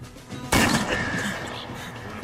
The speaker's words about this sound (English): Pa, what you shooting at?